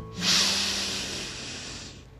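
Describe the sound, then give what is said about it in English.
A deep breath in during a guided relaxation exercise: one long, steady, airy inhale of about two seconds, soft hissing without any voice. “Take a deep breath in”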